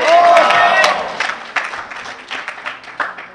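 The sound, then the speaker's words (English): An audience claps and cheers at a narcotics recovery meeting. Dense, sustained applause with scattered individual claps gradually thins out, and a voice is heard briefly at the start. “Y'all keep clapping. I'm going to roll for a long time with this one.”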